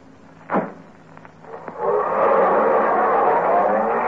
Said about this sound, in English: it certainly feels good to be driving along here in Beverly Hills with a clear conscience